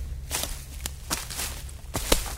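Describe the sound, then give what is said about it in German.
Footsteps walk through a tall summer grain field at harvest time, giving several crisp rustling crunches at an uneven pace over a low steady hum. “Sie nimmt uns mit ins Getreidefeld.”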